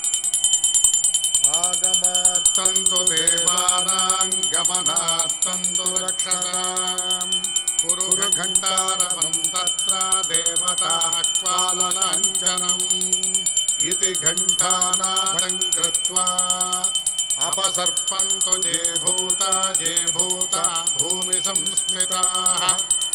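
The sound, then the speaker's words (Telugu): A hand bell rings continuously at the opening of a Hindu puja. Its high, sustained metallic ringing sounds over a melodic tonal line that keeps going throughout. “ఇప్పుడు మనం పూజ మొదలు పెడదామా? ముందుగా గంట వాయించండి, దీపారాధన వెలిగించండి.”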